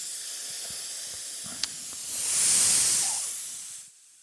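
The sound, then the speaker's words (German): Air hisses out of an inflatable's chambers as the valve is opened to let it deflate. The steady hiss swells louder midway, then cuts off abruptly near the end. One small click sounds early on. “der Moment, der es halt wirklich geil macht, ist, wenn ich jetzt hier die Luft rauslasse.”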